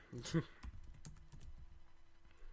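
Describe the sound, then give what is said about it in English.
Computer keyboard typing as a quizmaster enters a question during the final round of a quiz game: a few irregular, light key clicks spread across a couple of seconds, fairly faint against low background noise. “so I'm going to type in question”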